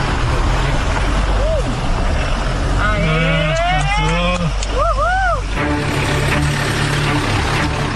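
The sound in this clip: A car engine revving as it climbs uphill over stones laid on a rough track. A steady low rumble runs throughout beneath shouted voices and brief rising whistle-like calls.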